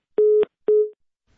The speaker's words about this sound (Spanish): como usted puede ver y como usted puede escuchar, se cortó la llamada